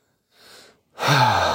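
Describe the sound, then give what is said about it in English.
A deep human breath: a soft, airy inhale, a short pause, then a louder, breathy sighing exhale. “Deep breath.”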